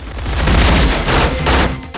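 Submachine gun firing at walls in a loud, sustained burst of rapid automatic gunfire, with dense overlapping shots and crackling impacts and no pauses.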